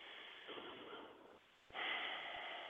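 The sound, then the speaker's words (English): A deep breath taken, a soft airy intake followed by a short pause and then a stronger, longer breathy rush, quiet and with no speech. “And take a healing breath.”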